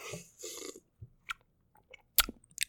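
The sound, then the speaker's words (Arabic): Coffee is sipped from a cup: a short breathy slurp, then a few small wet mouth clicks and a brief swallow-like sound. The sounds are quiet, and no one talks. “يشربون كذا يجمعون كاس قهوة يعني قهوه كذا ويحطونها في كوب كذا فخم ويشربون كذا وهم يسجلون فانا ما عندي هذا الشيء فبحاول اني اطلع الصوت هذا”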